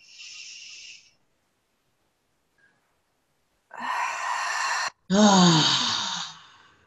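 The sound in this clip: Forceful exhalations during a breathing exercise push all the air out. A soft breath is followed by a pause, then two long, loud breathy exhales. The last one is voiced like a groaning sigh that sinks in pitch.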